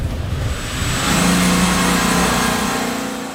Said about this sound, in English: So right now, we are driving through the village of Buchenbach towards the workshop where our mechanic, AJ, is working.